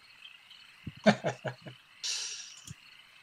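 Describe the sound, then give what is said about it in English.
A frog in a very cold setting, during a tabletop role-playing game, gives a quick run of several low, throaty croaks, then a brief hiss and one more short low croak. “It takes a few steps forward, watching that frog there.”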